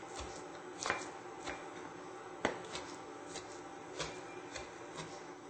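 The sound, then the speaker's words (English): A knife chops sticky dates on a board, working them into a fine paste. Soft, irregular taps are scattered throughout, with a few sharper knocks standing out, and no talking. “They make almost like a paste. And we'll do another chop this way.”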